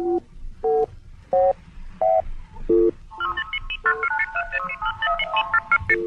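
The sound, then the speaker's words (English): An electronic beacon signal identifying a radio program: a few separate, loud tone bursts at shifting pitches, followed by a denser, rapid jumble of overlapping electronic tones. “There is one sound that so many people identify with the Monitor broadcast, the beacon.”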